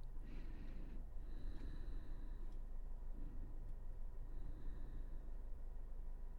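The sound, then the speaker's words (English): Deep breathing during a yoga session: faint, slow, airy inhales and exhales with a snorting, nasal edge, repeated a few times without speech. “Let's take a couple more massive breaths.”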